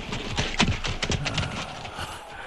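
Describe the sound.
Horse hooves clop as a rider dismounts in a radio drama: many irregular hoof strikes at a fairly even, moderate loudness, with no voices.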